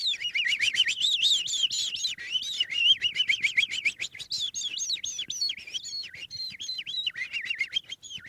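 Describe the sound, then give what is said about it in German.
A person imitating the long, complex song of a skylark, producing a rapid, unbroken stream of high warbling trills and chirps that waver up and down in pitch, loud and sustained with hardly a pause. “Oder der lange, komplexe Gesang der Feldlerche. Ich singe den jetzt mal erstmal.”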